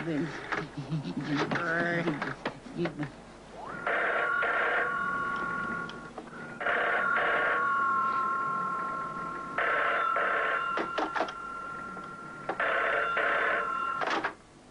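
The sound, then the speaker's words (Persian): A telephone bell rings during a call, sounding four bright, warbling bursts separated by short gaps after voices talk at the start, with a steady tone lingering between rings. “من با رئیس جون خودم تماس میگیرم”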